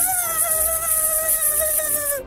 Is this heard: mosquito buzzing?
yes